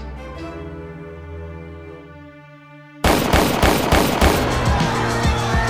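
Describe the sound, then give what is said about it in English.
Gunfire from a pair of 9mm pistols in a studio hallway erupts as a rapid cluster of sharp, loud reports, cutting in abruptly after a few seconds of a steady droning tone. “Shots came as soon as he entered the hallway at Quad Studios. Five of them, from the pair of 9mm carried by the roughnecks shaking him down.”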